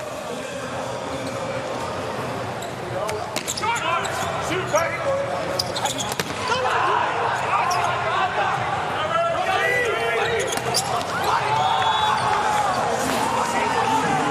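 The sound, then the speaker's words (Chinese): A volleyball is served and struck during a rally in an international match. A few sharp ball hits ring out over steady crowd noise, with commentator talk running underneath. “也刚上场的主攻卢卡波罗的发球。”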